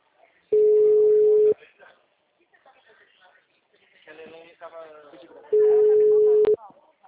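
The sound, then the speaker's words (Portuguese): Telephone ringing tone: two steady mid-pitched tones, each about one second long, separated by a pause of several seconds. People talk during the gap. “Tô em ligação.”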